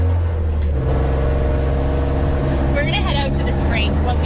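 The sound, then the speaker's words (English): Quad bike engine drives off across a ranch toward a wetland with a steady, loud, low drone that runs throughout. Its note steps up early on, then stays even. “We hop in a quad and drive to a wetland on the property.”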